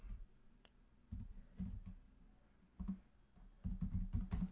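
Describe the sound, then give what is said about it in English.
Typing on a computer keyboard: faint, quick clicks that come in several short bursts separated by quiet gaps, busiest near the end. “As everyone listens to me type.”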